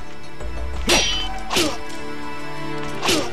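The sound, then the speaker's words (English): Ninja or samurai sword attacks being blocked in a video game land as three sharp, bright thwacks spaced unevenly over a steady low background hum. “There's one ninja left. Or samurai. He's gonna just hit me, but I'm gonna block him. I'm gonna keep blocking.”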